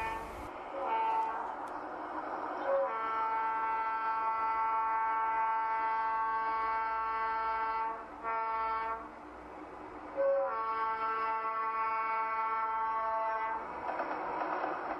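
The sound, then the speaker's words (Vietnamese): A train leaving a station sounds its horn in two long, steady tonal blasts after a brief shorter tone, over a constant low rumble of the moving train. “Khi đoàn tàu rời nhà ga”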